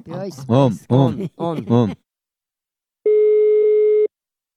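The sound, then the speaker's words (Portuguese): A telephone tone while placing a call: one steady, mid-pitched beep lasting about a second. It comes alone after a short stretch of talk, and silence follows. “Vou ligar agora”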